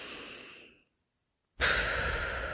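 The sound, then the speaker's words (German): Pursed-lip exhalation: breath drawn in through the nose and let out slowly between loosely closed lips with a small puff. A soft airy exhale fades out, then after a pause a louder, steady breath rush begins. “Du machst so ein kleines Puffgeräusch, so ein beim Ausatmen.”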